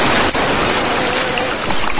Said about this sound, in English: Okay, we're out of the water now. And back into another waterfall. My, they're everywhere.